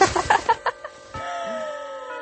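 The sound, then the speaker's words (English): A school bell chime rings in a classroom: a single clear electronic ding that sustains as a steady, moderately loud tone for about a second. “Oh, but the bell just rang, so it's time to go.”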